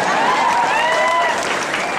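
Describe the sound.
Applause from an audience at a packed public gathering, a continuous, loud burst of many hands clapping with crowd noise mixed in, holding steady throughout.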